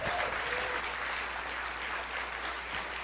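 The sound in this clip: Applause from a church audience welcoming a speaker, a full, sustained burst of clapping that stays strong for about three seconds and eases off only slightly toward the end.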